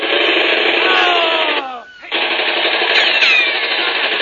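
Gunfire from a gun in a radio drama rattles out as a loud, rapid, continuous burst that breaks off briefly, then resumes just as dense and steady.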